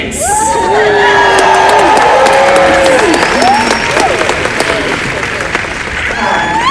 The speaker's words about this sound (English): Thank you so much for indulging me, and now keep that applause going